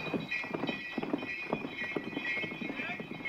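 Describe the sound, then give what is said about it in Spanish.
Horses' hooves clip-clop as two mounted soldiers lead a departing sleigh. The hoof beats are steady and rhythmic, moderately faint, and form a continuous trotting pattern with no pause. “Precedido por los dos soldados a caballo, el trineo se aleja llevando a Víctor, Lara y Katia.”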